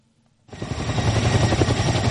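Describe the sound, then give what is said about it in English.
Chinook heavy-lift helicopter, used as a wildfire water bomber, running at an airport: after a brief quiet start, a loud, dense rotor and engine roar cuts in and holds steady with a rapid pulsing throb. “Behind us is a Chinook, and it is a heavy lift water bomber. We currently have helicopters based here at the Grand Marais Airport.”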